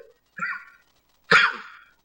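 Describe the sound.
Two coughs from a speaker during an Islamic religious lecture: a shorter, softer cough, then after a brief gap a louder, harsher one with an abrupt burst onset.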